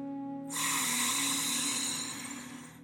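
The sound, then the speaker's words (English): A deep breath drawn in through the nose during a guided breathing exercise makes a steady, airy rush that lasts about two seconds before tapering off. “Breathe in through the nose, fully filling the lungs,”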